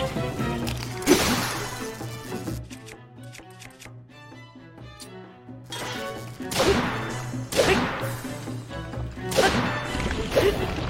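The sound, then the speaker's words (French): A flame shield shatters in an action-adventure video game: several sharp, crashing hits burst out over tonal game music, with a quieter musical stretch between the early impact and a later cluster of harsh smashes. “mon bouclier flamboyant, il s'est brisé”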